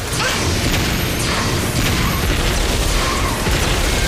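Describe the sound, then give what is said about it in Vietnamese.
A blue laser attack sound effect fires in a cartoon battle, a loud, sustained roaring blast full of crackling noise and whooshing sweeps that stays steady for about four seconds, with no voices. “Blue laser. Laser xanh,”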